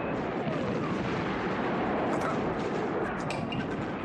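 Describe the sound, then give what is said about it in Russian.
Dense, loud wartime battle din from a film: aircraft drop bombs while a bipod-mounted rifle fires from a trench, merging into a continuous rumbling roar of blasts and gunfire with no single shot standing apart. “Стреляет. Сбросив бомбы, самолеты разворачиваются по широкой дуге на новый заход.”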